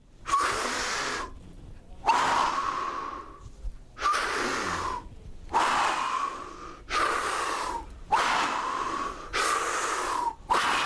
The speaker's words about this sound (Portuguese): Agora, vocês vão respirar com a boca, onde vocês vão puxar o ar.